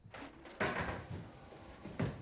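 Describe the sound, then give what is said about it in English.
Rummaging through a drawer on the sink unit of a small kitchenette: a few sharp knocks and clatters of items shifting inside, with softer scraping and handling sounds in between. “He goes into the small kitchenette and rummages through a drawer on the sink unit as Polly appears.”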